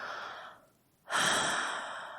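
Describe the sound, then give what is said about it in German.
Deep, audible breaths. A long airy breath fades out, a short near-silent pause follows, then a strong, full breath rushes in and slowly tails off. “dann nimm mal 3, 4 tiefe Atemzüge.”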